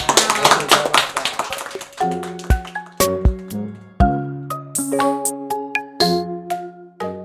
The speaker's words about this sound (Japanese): お二人にぜひ盛大な拍手をお願いします。